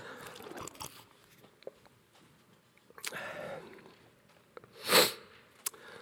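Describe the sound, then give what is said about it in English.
Soft mouth and sipping sounds as a preacher with a frog in his throat drinks water before a sermon: a few quiet clicks and swallows, then one louder breathy burst near the end. “Excuse me while I drink in front of you.”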